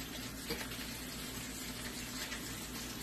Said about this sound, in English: Flipping bacon. I'm cooking bacon in a cast iron pot. Pan.